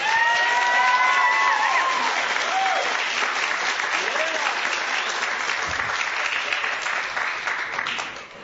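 An audience applauds and cheers for pastors at a church gathering. Sustained clapping carries a few high whoops early on, then the applause slowly thins and fades toward the end.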